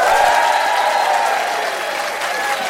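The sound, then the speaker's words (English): Applause from a live, packed studio audience: a dense, steady wash of clapping that stays loud and even throughout, with the crowd murmuring beneath it. “We are also joined, you might be able to hear them tittering in the background, by a live, packed audience.”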